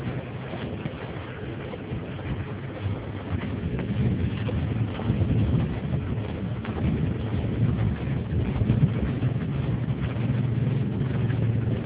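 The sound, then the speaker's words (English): Wind picking up outdoors on a hill, a continuous rushing, buffeting roar with a low rumble that grows slightly stronger partway through. “And the wind's kicking up,”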